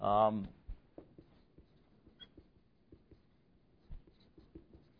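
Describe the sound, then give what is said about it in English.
Writing on a board: a quiet run of many soft scratches and taps in an uneven rhythm, following a brief voice at the start. “I haven't given you this text, but I'll write it on the board if you want to look at it.”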